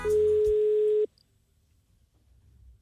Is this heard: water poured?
no